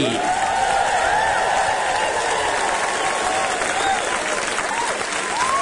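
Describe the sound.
Enthusiastic audience applause welcomes the host to the stage at a celebration night, steady dense clapping with scattered whoops rising above it, holding at a constant level throughout.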